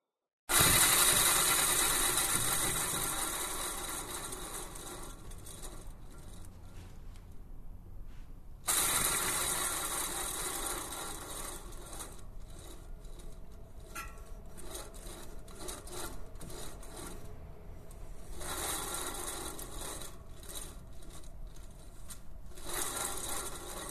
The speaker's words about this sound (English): The Guillermo Galindo sculpture and sound piece made from a bicycle wheel is called Listo, which translates as ready to go, and let's have a listen.